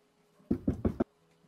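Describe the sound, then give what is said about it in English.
A fist knocks on a wooden door during a tabletop role-playing game: four dull, low knocks in quick, even succession, alone against near silence. “I reach up as high as I can, and I try to knock the center of the door. This one does not have a knocker on it, so you can still reach up and actually use your fist to knock if you wish.”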